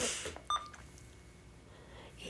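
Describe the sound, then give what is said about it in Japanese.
A single short electronic beep from a button pressed by accident, a brief clear tone that stands out once over a faint, steady background hum. “なんか変なボタンを押してしまってピッて言っちゃった”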